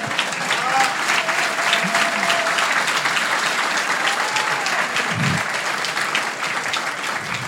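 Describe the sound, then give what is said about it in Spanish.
Sustained audience applause at a book presentation: dense, even clapping fills the whole stretch without a break and holds a steady loudness from start to finish. “¿Quién aplaudía a León de vuelta? Por favor.”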